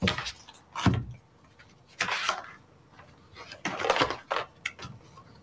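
A deck of cards being shuffled by hand for a card reading: several short bursts of papery rustling and flicking, with quieter gaps between them and no talk.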